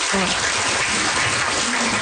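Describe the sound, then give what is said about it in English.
A short burst of applause lasting about two seconds, dense, even clapping with a voice briefly audible beneath it. “Round of applause for Christina!”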